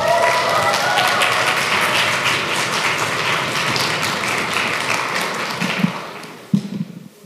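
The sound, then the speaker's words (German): An audience welcomes a guest onto a stage with loud applause mixed with stomping and trampling feet, a dense rumbling roar that slowly thins toward the end, leaving a few heavy thumps. “Dieses Stampfen und Trampeln finde ich auch wunderschön. Ich finde, das passt voll gut, wenn ich jemanden auf die Bühne hole. Deshalb merkt sich das, macht es gleich nur einmal und begrüßt auf der Bühne Christine Teichmann.”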